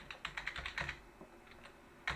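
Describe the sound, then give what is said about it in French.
Typing on a computer keyboard: a quick, uneven run of many soft key clicks, faint and alone, with a slight pause midway and a final click at the end. “alors je suis en train de taper des trucs sur l'ordinateur tout en faisant d'autres choses”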